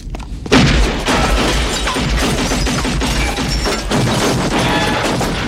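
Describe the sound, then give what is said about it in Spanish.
A sudden loud boom, taken for a gunshot among a crew, bursts in after a short quiet lead-in and gives way to a dense, sustained crashing rumble that stays loud to the end. “¿Arma de fuego? Eso me pareció oír, señor.”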